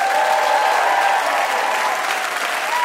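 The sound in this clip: Audience applause welcoming John Flansburgh of They Might Be Giants to a live comedy game, a dense, even wash of clapping that holds steady and loud throughout.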